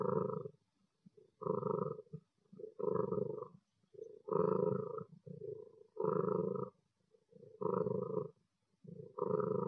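A cat purring contentedly, a deep rumbling buzz that swells and pauses in regular cycles of about a second each, repeating steadily throughout at moderate loudness.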